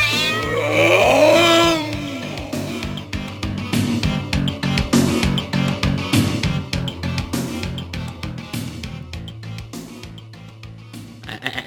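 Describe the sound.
A cat yowling: a loud, drawn-out, wavering yowl at the start, followed by many sharp, rapid clattering noises that gradually grow fainter.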